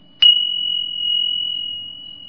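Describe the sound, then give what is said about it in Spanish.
Small melodious cymbals, a biblical instrument used in music therapy, struck once with a bright attack that settles into a long, steady, high-pitched ring sustaining to the end, heard alone. “Es un instrumento incluso bíblico, que está en la Biblia y dice alaben ajá con los címbalos melodiosos. Entonces, se utiliza para musicoterapia. Suena de esta forma, ¿no?”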